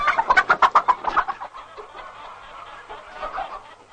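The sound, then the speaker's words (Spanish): A hen clucks loudly in a rapid, rhythmic run of short notes, then continues with softer, looser clucking murmurs. “Dame la gallina. Mírela usted, ¿eh?”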